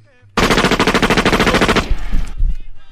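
A firing squad's gunfire: one sudden loud burst of many rapid shots lasting about a second and a half, followed by a rough rumbling tail as the volley dies away.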